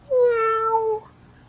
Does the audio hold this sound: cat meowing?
yes

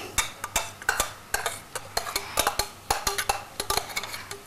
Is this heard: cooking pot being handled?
yes

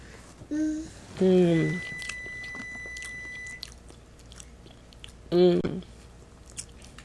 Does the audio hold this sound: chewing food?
yes

